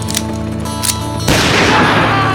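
A rifle gunshot erupts as one abrupt, loud blast, cutting through a steady droning hum and leaving dense, sustained noise to the end.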